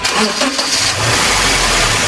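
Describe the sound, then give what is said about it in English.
A car engine cranks with uneven pulses, then catches and settles into a steady, loud rumble, inside a repair garage; the car had sputtered and stalled after a fuel fill-up. “We were in the garage when they got it cranked back up.”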